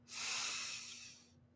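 A deep breath drawn in during a guided breathing exercise: one long, soft, airy inhale lasting over a second, quiet and alone, then fading.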